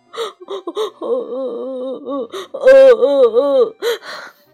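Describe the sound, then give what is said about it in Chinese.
A storyteller's voice imitates crying with a string of wavering, whimpering sobs and drawn-out moaning wails. The sound is loud and grows shakier toward the end. “爸爸爸爸好伤心呀，他哭了起来。”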